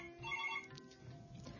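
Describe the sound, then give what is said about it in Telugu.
A phone ringtone for an incoming call plays as a short, faint burst of warbling high tones, then gives way to soft background noise. “మనకు call వస్తుంది, call మాట్లాడాక మళ్ళీ continue చేసుకుందాం.”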